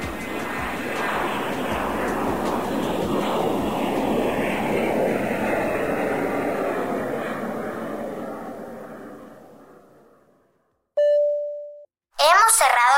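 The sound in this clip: A steady airplane engine roar, a broad rushing drone, gradually fades out over about ten seconds. It is followed by a clear cabin chime tone and then another bright chime.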